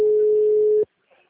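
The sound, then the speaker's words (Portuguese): A single steady telephone tone, a busy signal after dialling a number, holds at an even pitch for under a second and then cuts off abruptly, leaving near silence with a faint brief rustle. “Tô fazendo ligação. O número está ocupado.”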